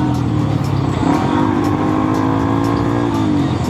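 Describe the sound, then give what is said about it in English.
A motorcycle engine drones steadily as it rides backwards along the shoulder of a road, a loud, continuous, even engine tone with no breaks and no voices. “He turns around and drives backwards along the shoulder of the road.”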